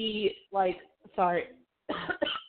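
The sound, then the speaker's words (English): Coughing and throat clearing from someone with something caught in the back of the throat: a few rough, voiced bursts broken by short pauses. “I have something caught in the back of my throat.”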